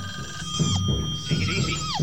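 A telephone rings in a home with a steady, bell-like electronic tone that holds across the whole clip over a low rumbling background.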